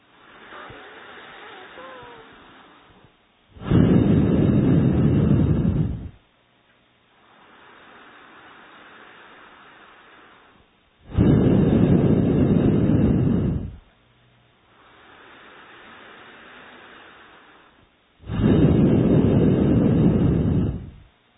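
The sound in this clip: Forceful breathing through the nostrils during an alternate-nostril breathing exercise, coming as three loud, hissing bursts of about two and a half seconds each. Each burst is separated by longer, much quieter stretches.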